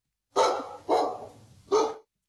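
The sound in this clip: A dog barks three times as a clue in a guessing game. The barks are loud and sharp, and the first two come quickly one after the other. A longer pause comes before the third, with no voices over them.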